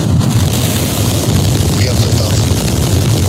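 The Artemis II rocket launch at ignition gives a deep, loud, continuous roar, a dense rumble that holds steady without a break.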